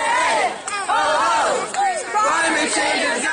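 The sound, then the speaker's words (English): A loud crowd of young people at a Friday climate strike shouts and chants without pause, their many voices swelling and falling in overlapping cries. “these climate strikes where tons of young people would gather every Friday, maybe walk out of school to demand action against climate change. The strikes used to sound like this.”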